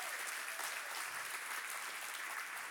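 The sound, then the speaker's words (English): Applause from a church audience welcoming online viewers during a service, steady and dense throughout, with no voices rising above it. “So come on, church, help me welcome all of those who are tuning in.”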